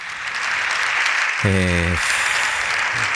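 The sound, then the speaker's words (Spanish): Members of parliament stand and applaud in the chamber of the Congress of Deputies, and the dense, steady clatter of many hands continues without a break from start to finish. “a presidenta do Congreso está deixando tempo para estes aplausos”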